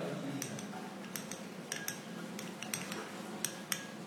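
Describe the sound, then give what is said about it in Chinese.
Light, irregular clinks of a utensil against a vessel as melted wax is poured in and stirred, faint and quick taps repeating. “接下来的一步就是把烧好的蜡液倒入，跟它一起搅拌。”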